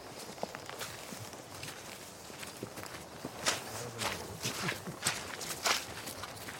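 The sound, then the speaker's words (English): Footsteps walk through a puddle on a woodland path, a run of many uneven, soft steps with crunchy, splashy textures and occasional firmer treads standing out. “Well, let's walk on because James is getting ahead of us. So yeah. He knows these woods. Let's get through the puddle.”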